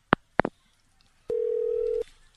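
After a call is hung up, two sharp handset clicks are followed by a steady, mid-pitched telephone tone that lasts under a second and then cuts off.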